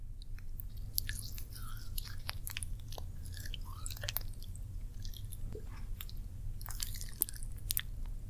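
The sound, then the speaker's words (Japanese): Wet, squishy rubbing as warming cream is massaged into the ears, with many soft crackles and smacks in a continuous, even texture and no talking. “この暖かさを利用して、耳を揉ませていただきます。”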